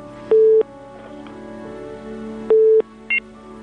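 Telephone tone from a failed call on a phone line: two identical steady beeps about two seconds apart, then a brief higher double blip, over a low background hum.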